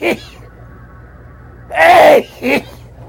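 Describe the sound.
A single loud, forceful sneeze bursts out, with short bits of a voice just before and after it.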